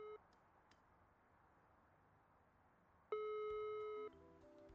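Faint electronic beeps come from a cordless phone handset as a number is dialed: a brief tone at the start, then a steady, higher tone held for about a second.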